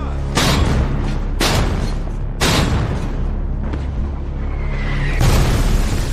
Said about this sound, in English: And suddenly, German artillery opens up.